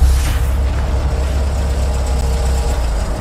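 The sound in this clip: A car engine rumbles steadily as the car is driven in to park, a continuous low idling drone that holds an even level throughout with no voices.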